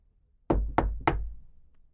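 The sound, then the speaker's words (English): Three knocks on the door of a house after dark, deep hollow thuds evenly spaced, each ringing briefly before fading, with silence before and after. “so I knocked on the door”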